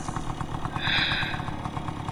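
An old Vespa motor scooter runs, its temperamental engine prone to stalling, with an even, rapid putter of firing pulses at a steady moderate level.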